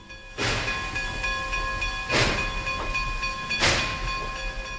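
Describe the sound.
A train sounds with a steady humming tone broken by three sharp bursts of hissing, evenly spaced and fairly loud, with no voices.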